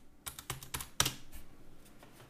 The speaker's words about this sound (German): Ich tippe die dir mal in den Chat und du sagst, wie man es ausspricht.